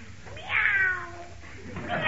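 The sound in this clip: A person's voice imitates a cat with one drawn-out, nasal meow that starts high and slides downward. Quiet low background noise surrounds it.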